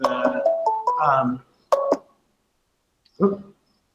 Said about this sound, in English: I just had a weird ringing happen there.